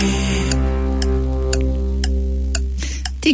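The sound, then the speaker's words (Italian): A clock ticks in a steady, even rhythm of sharp clicks, roughly twice per second, over sustained low tones. “E questo sarà o un orologio o un metronomo, mi sbaglio? No, assolutamente no, è un orologio che metto alla fine”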